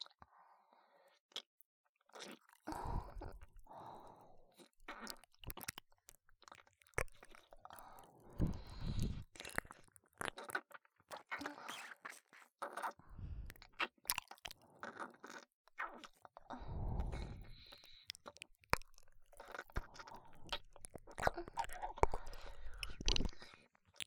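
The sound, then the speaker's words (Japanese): Wet ear-licking and mouth sounds, ASMR, made up of many soft, irregular clicks, smacks and slurps that stay quiet throughout, with occasional louder bursts. “私はこちらの耳を舐めさせていただきます。”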